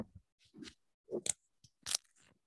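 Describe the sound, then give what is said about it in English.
A Velcro strap is tightened in a few brief, quiet rasping rips separated by short pauses, with the loudest tearing bursts in the second half. “No, mine has like Velcro. Like, no, here, let's do some ASMR. Tightening.”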